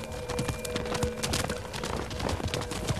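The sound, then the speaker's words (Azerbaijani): Horse hooves clip-clopping as a horse is led away: many rapid, even hoofbeats in a steady rhythm, set against a dense, busy background. “Atı hara aparırsan? Axı atsız özümü küfiyə çatdıra bilmərəm.”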